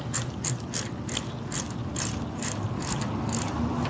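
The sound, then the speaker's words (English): A bicycle freewheel being tightened by hand gives off rapid, even ratcheting clicks that run steadily from start to finish over a soft mechanical whir. “And now I'll put the freewheel back on and start tightening it down.”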